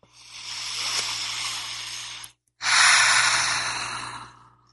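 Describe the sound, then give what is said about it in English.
A deep breath taken during a guided heart-centred meditation: one slow, airy inhale, a brief silence, then a longer, louder exhale that fades out gradually, with no other sounds. “take a deep breath of love and gratitude with me.”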